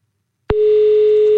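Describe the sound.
A telephone line on a call back to a caller who had hung up: a short click, then a steady single-pitch electronic tone that sounds loud and unbroken until the end.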